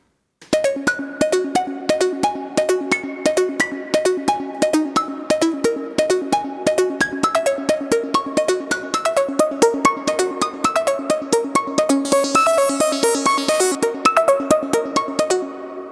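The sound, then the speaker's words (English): A modular synthesizer voice, an oscillator fed through a dual passive low-pass gate, plays many plucky, percussive notes in a quick rhythmic melodic sequence. Each note strikes brightly and decays fast, and the notes run steadily from start to end. “Then the output A of the piston onda goes into the dual low-pass gate, passive low-pass gate of TACAB, and sounds like this.”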